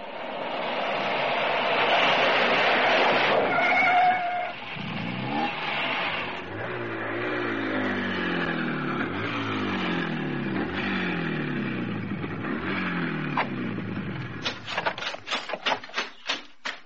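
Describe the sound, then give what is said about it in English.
A vehicle pulls over to the roadside: a steady engine drone whose harmonic tones fall as it slows, ending in a rapid series of sharp clicks. “But one thing I do know, I'd better pull over and find out.”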